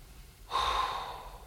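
A slow exhaled breath during a guided breathing exercise: a soft, airy whoosh that begins abruptly after a short quiet stretch and gently fades as it continues.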